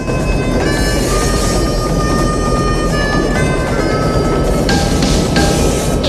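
A moving train gives off a loud, continuous rumbling roar that stays steady throughout, with no break or change in pace.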